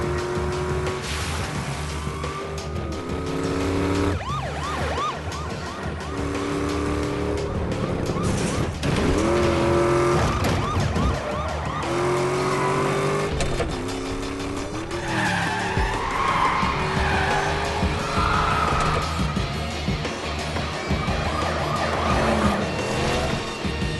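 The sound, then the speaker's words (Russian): Cars tearing through a port in a film police chase, with repeated loud tire squeals and skids over roaring engines, sustained throughout. “Полиция тут же выскочила из-за угла. Они скрываются от погони по порту.”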